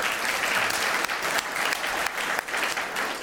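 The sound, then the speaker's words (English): Round of applause from an audience at a political panel event after a lightning round, a sustained, dense wash of clapping at a steady level for over three seconds. “Let's give them a round of applause for”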